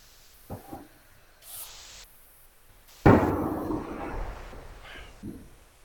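Gunfire: a few faint noises, then one sudden loud blast followed by a long hissing, rumbling tail that slowly fades.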